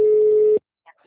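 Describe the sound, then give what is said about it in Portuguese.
Telephone busy tone after a dropped call: a single steady, mid-pitched beep that cuts off abruptly, followed by near silence. “a ligação caiu”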